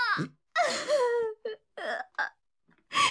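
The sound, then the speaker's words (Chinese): Crying and sobbing: a string of broken, wavering voiced sobs in short bursts with brief gasping pauses between them, fairly loud and ending on a stronger cry. “别哭，你别哭嘛。”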